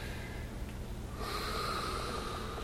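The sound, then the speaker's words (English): A person takes a deep inhale during a seated breathing exercise. The airy, quiet intake of breath swells noticeably partway through, with no talk. “So inhaling,”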